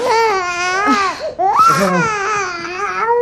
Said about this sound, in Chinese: 不哭了啊，不哭了